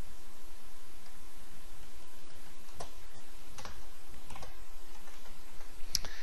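A computer keyboard as code is typed. A few sparse, faint, sharp key clicks come at irregular intervals over a steady low background hum, with no voices.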